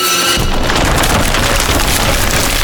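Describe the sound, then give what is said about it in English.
Collapse of a buckling metal support as several tons of plasboard and ferrocrete crash down: after a brief quiet start, a loud, dense crashing roar of tumbling debris continues unbroken to the end. “The tortured metal twisted and gave way. Several tons of plasboard and ferrocrete fell on the beast.”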